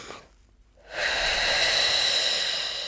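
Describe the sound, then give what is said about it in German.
A deep breath taken as a breathing exercise for easing tightness between the rib arches is held in near silence, then let out as a loud, steady rushing exhale that lasts to the end. “Also sehr tief einatmen, halten, halten, halten und dann”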